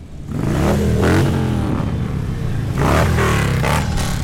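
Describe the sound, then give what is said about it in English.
Motorcycle engines rev and roar during a bikers' rally ride through Reno and Virginia City, Nevada, at the Street Vibrations Fall Rally 2020. Loud and continuous, with rising and falling engine whine and some clatter, and no talk. “Hundreds of bikers came from across Nevada and California to take part in the ride. They drove through Reno and Virginia City.”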